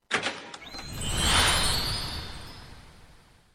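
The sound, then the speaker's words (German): A golden fairy-tale gate opening, rendered as a magical effect: a few quick bright strikes lead into a swelling, airy shimmer that peaks after about a second and slowly fades away. “Und jetzt öffnet sich das goldene Märchentor und wir tauchen ein in die Geschichte der Sterntaler.”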